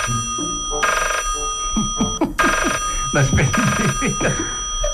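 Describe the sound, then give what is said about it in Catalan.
A telephone rings with an incoming call: a bright electronic ringtone repeating in several loud bursts of chiming tones. “Quan de sobte, Sherlock Holmes rep una trucada que li canviarà la vida.”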